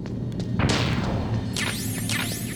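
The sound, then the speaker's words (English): Chaff grenades thrown at turrets in a video game make a broad whooshing burst over low thumps, then a few descending electronic chirps sweeping down in pitch. “So let's go ahead and throw some more chaff grenades.”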